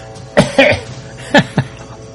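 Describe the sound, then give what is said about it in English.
Coughing from someone with a frog in the throat after a slug of orange juice: four short, harsh bursts in two quick pairs, separated by a brief pause, over faint background hiss. “I've got a serious frog in my throat, and I'm going to be on the verge of coughing, I'm sure.”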